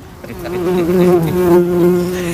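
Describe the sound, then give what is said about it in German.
Steady buzzing of a bee: a loud, unbroken low drone that wavers slightly in pitch throughout, with no voices over it. “Ob die Fliege weg ist. Jetzt sitzt da eine Biene.”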